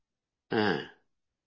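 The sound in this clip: A person burps once, a short voiced belch lasting about half a second that swells quickly and trails off, alone with no talk.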